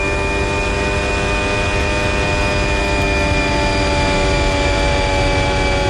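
Racing car engine at 90 km/h in third gear through a chicane sequence, a loud, steady drone with a strong tonal whine and dense harmonics that hold even for about six seconds.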